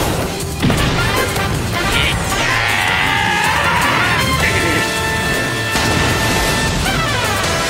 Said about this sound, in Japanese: やった、ガゼルパンチクリーンヒット。